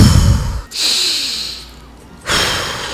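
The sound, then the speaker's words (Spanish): Deliberate, audible breathing from a person demonstrating calm breathing to help someone through a panic attack: a few long, airy, hissing breaths, fairly loud and close, with no talk. “Escucha cómo respiro.”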